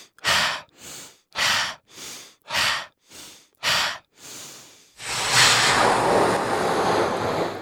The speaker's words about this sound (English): Breathe 5 times. Try it with me. Breathe 5 times.